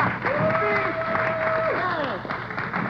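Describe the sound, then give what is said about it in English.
A crowd applauds in a dense, steady clatter of clapping, with a long sustained tonal cry gliding over it before the clapping thins slightly toward the end. “applause.”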